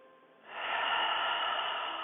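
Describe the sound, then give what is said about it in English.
Deep breath drawn in and let out through the mouth at the start of a yoga class: a quiet moment, then a soft, steady breathy rush that swells and holds to the end, with no talk. “Let's take an inhale together and an exhale out the mouth. And one more of those.”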